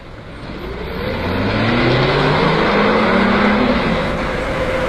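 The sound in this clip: A car engine revs up and pulls away, its loud, steady drone rising in pitch and growing louder over the first second, then holding strong to the end.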